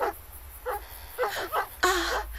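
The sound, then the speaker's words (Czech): A stray dog near a church gives a few short, whimpering yelps and barks. The calls come in separate bursts over a low, steady background rumble. “U kostela nejspíš zatoulaný psí.”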